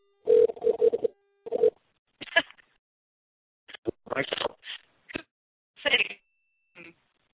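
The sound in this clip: Automatic telephone dialing: short electronic tones and a steady low hum mixed with muffled, narrow-band voice fragments over a phone line, coming in several separate bursts with silent gaps.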